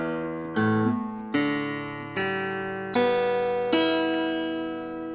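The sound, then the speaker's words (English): Guitar strings are plucked one at a time from the bass strings up to the treble strings. The notes climb steadily in pitch with even spacing, and each one rings on and decays beneath the next. “Well, the way a guitar sounds, if you use it from top to bottom, it will be like this.”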